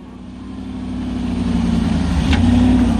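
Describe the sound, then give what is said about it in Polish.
An off-road vehicle drives toward the village of Al-Hadidiyya on a road too rough for an ordinary car's suspension. Its engine makes a steady low drone that grows slowly louder, with no voices. “Do wioski Al-Hadidiyya jedziemy terenowym samochodem. Osobówką byłoby ciężko, nie wytrzymałoby zawieszenie.”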